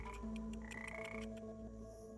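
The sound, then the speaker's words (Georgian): Frog croaking while it is irritated to release its poison in a kambo extraction: steady, loud tonal croaks layered with a few short pulsed bursts, with no talking. “ბაყაყი კი თავის შხამს გამოყოფს. ბაყაყს ეს არ მოსწონს, მაგრამ ეს ერთადერთი საშუალებაა.”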